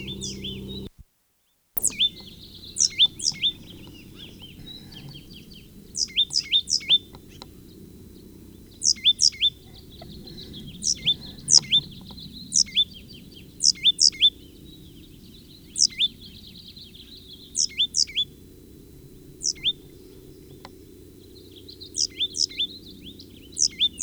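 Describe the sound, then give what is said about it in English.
Bird singing in a pasture: many recurring bursts of high, sharp chirps, grouped in quick clusters of two to four notes, repeating throughout over a low, steady background rumble. “Blomquist pasture bird.”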